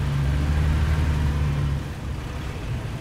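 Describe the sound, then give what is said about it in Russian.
A car's engine gives a low, steady rumble as the car slows at gates and rolls through onto the grounds; the drone softens after about two seconds. “Притормаживают у ворот. Ворота открываются. Машина заезжает на территорию.”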